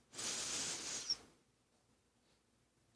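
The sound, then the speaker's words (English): A single deep inhale during a breathing exercise in a healing talking circle: a soft, breathy rush of air lasting about a second, then near silence. “Please close your eyes. And let's inhale for four.”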